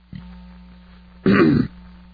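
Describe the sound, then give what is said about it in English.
A person with a cold gives a single harsh cough or throat clearing. It is one loud burst of about half a second, set against a steady low hum. “Excuse me. I got a cold still, folks. I'm getting better, but I have these coughing attacks.”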